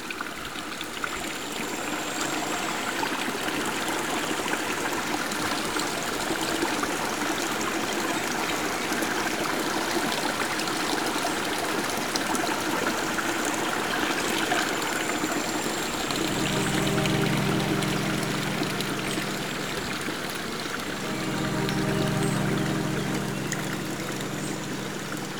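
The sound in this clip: Gentle water laps and trickles steadily amid a wooded natural setting, a soft continuous wash with a low hum joining in during the later part.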